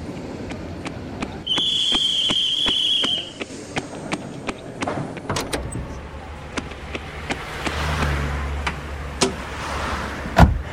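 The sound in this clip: Someone gets into a taxi and the car drives off: many sharp clicks and knocks, a steady high whine for a couple of seconds, door-like thumps, then a low engine rumble that swells and fades.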